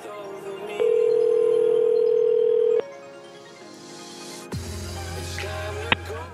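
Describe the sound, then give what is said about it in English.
A steady telephone dial tone sounds while a call back to a mother is placed. It is loud, unbroken and about two seconds long, then gives way to a quieter low hum with a couple of faint clicks. “Let's call her back. Let's call her back.”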